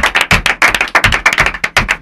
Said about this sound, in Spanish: Pero aplaudid, ¿o qué? Ahí, ahí.